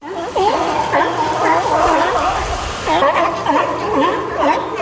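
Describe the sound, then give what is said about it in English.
Sea lions barking at Shoshal Bay: many loud, hoarse, harmonic barks overlap in irregular bursts over a continuous low background, with a brief lull near the middle before the calling resumes. “That was the sound of sea lions at Shoshal Bay.”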